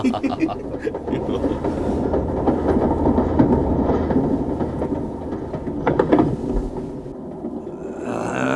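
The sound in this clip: A railroad car rolls along rails with a heavy, continuous rumble and a rhythmic clatter of wheels over the track. The noise stays steady and loud, with a few brighter clanks toward the end.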